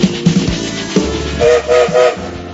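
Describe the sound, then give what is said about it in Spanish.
A train whistle gives three short, steady, high blasts over the rumble and clatter of a moving train. “el tren ya está en movimiento, ustedes escucharon el silbato”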